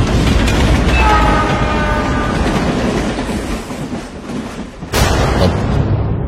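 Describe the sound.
A train pulls away along the tracks at a railway station. Its loud rumble and clattering wheels come with a horn sounding early on, then the roar eases before a sharp, full rush of noise returns.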